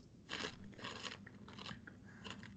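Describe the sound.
Someone crunching potato chips: four crisp, noisy crunch bursts spaced evenly, each a brittle crackle of bites and chewing, fairly faint.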